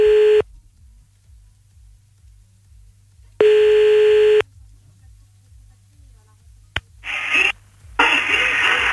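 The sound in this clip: A telephone ringback tone sounds twice as a call is placed back to someone, each a steady, long beep followed by silence. Then a click is heard and a voice answers the line.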